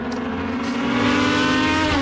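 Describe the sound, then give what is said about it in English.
Race cars roar at a small local racetrack in Virginia on race day, a loud continuous engine drone with strong, steady harmonics and no break in the sound. “It's race day at Shenandoah Speedway, like it is most Saturdays in the summer.”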